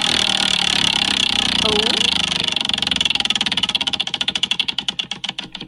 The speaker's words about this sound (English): So I'm just going to let the wheel do its thing and then just see what happens.